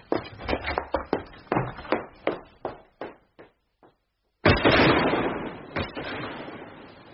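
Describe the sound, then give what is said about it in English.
A gunshot fired into the air during a duel cracks out as one sharp, loud blast with a long fading tail, after a run of irregular tapping knocks that grow fainter and a brief silence. “You fired into the air!”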